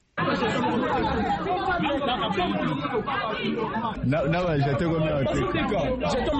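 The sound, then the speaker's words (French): A noisy crowd of students jostles at an enrolment centre in Listandolo, Kinshasa, with many voices talking and shouting over one another in a dense, loud, unbroken babble. “Ces bruits ne proviennent pas du marché Gambela, c'est l'ambiance qui a régné ce dimanche au centre d'enrôlement à Listandolo. Les étudiants ont sémé les désordres parce qu'ils voulaient s'enrôler en premier.”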